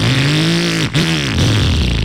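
Faulty motorcycle engine revving loudly, its tone sliding down, cutting out for an instant, then climbing and settling again in a rough, droning pulse.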